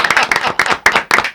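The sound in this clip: Applause from a crowd at a political event, dense continuous clapping with uneven surges, loud and sustained through the short clip.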